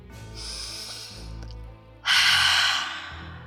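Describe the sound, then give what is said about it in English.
A person takes a slow, deep breath, heard as two long, airy breath sounds. The second is clearly louder and more forceful than the first, with no talking. “Take a nice deep breath.”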